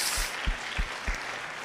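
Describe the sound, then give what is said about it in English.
A church audience clapping their hands in worship: a fairly faint, steady rhythmic beat of claps over a broad crowd wash, with about four distinct beats standing out. “Come on, clap our hands to Jesus.”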